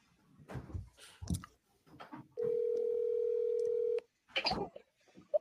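Telephone dial tone and dialing as a caller is put through on a call-in segment: a steady, single-pitched tone holds for about a second and a half, with brief clicks and scattered short sounds before and after it.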